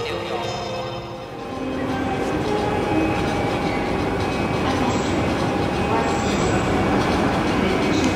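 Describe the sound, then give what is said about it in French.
Train arriving from Lyon at the Gare de Lyon railway station in Paris, heard as a loud, steady, broad rumble with rattling wheel clatter that continues without a break and swells slightly. “On est à Paris, à la gare de Lyon, et on attend le train en provenance de Lyon justement, avec Didier à l'intérieur”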